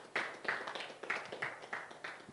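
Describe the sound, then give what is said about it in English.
Faint audience clapping during a church sermon, a handful of soft claps at a loose, slightly uneven rhythm. “You should clap for him.”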